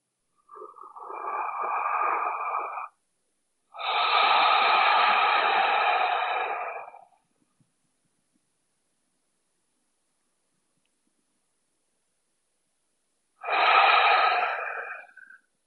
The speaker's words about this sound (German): Also, dann lass uns drei bewusste Atemzüge nehmen. Nimm deine Hände, deine Handgelenke zur Nase und atme diesen Duft ein für dich.